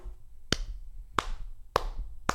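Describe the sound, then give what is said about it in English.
One person claps alone, four sharp, separate claps spaced about half a second apart, each a crisp slap over a quiet, faintly noisy background. “You make me clap by myself, Nicole.”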